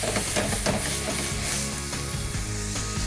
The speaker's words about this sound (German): So, und jetzt habe ich hier Weißwein. So, und jetzt lösche ich immer so ein bisschen ab hier.